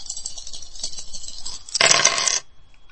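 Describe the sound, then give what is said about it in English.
Dice rolling in a dice video game make a short, bright clattering rattle. The burst lasts about half a second and is louder than the faint, steady background before and after it. “Press the space bar to roll the dice.”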